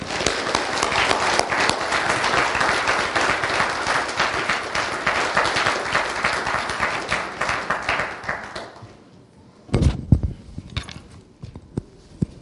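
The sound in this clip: A church audience applauds to welcome a speaker to the stage with steady, dense clapping that lasts several seconds before fading out.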